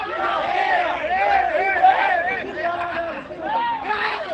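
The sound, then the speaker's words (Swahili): Football fans, men and women, cheer and shout at a local match. A dense mass of raised, overlapping voices carries on steadily, with chant-like calls rising and falling. “Mambo ni mazuri sana msikilizaji, hizo pia ni shamra shamra na shangwe za mashabiki ambao wako hapa, wake kwa waume wanashuhudia ball.”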